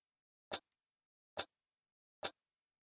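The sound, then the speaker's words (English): Metronome click track from a music project: three sharp, identical clicks at an even, steady pace, alone against silence. “I've got my click track. I'll let you hear just a little bit of what that sounds like.”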